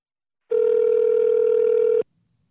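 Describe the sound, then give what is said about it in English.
A telephone tone sounds while a call is being placed: one loud, steady, single-pitch tone lasting about a second and a half, heard alone. “Let's see if we can call him”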